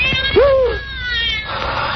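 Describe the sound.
A stray cat gives one loud, drawn-out meow that rises and then trails off, heard alone over a faint background hiss.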